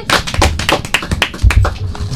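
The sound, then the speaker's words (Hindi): A group of children claps together, producing a dense run of sharp, irregular claps that stays fairly loud for about two seconds. “सारे बच्चे ताली बजाएंगे।”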